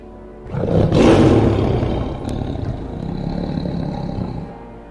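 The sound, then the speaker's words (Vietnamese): A tiger lets out one deep, loud roar that swells quickly and then trails off into a long, lower rumbling growl. “Thần hổ gầm lên một tiếng vang trời, vọng khắp cả không gian.”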